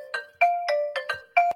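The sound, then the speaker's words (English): An incoming call rings on a computer: a quick run of several bright electronic notes in a short melodic pattern, clear and alone against silence. “That's not my phone. That's not my phone. That's someone calling my daughter on the computer.”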